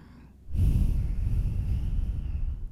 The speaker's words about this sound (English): try to create that sound with the breath as you inhale deeply and exhale deeply.